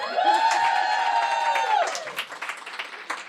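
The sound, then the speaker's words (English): A live audience at RJ Julia's bookstore in Madison, Connecticut cheers for a book event, with a long sustained whoop over clapping that thins into scattered claps. “So for our listeners, we are recording this in front of a packed live audience. Let them hear.”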